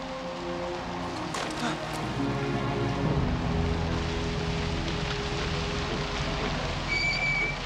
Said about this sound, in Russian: Начинается дождь.